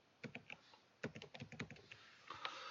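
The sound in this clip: Faint typing on a computer keyboard: quick, irregular clusters of light key clicks, with a short pause between two bursts of keystrokes.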